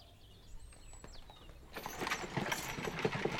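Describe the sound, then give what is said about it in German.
An 18th-century horse-drawn carriage approaches. Thin bird calls come first, then clattering hoofbeats and a rolling rattle break in and grow steadily louder. “Ui, da kommen Sie schon. Achtung, Kutsche!”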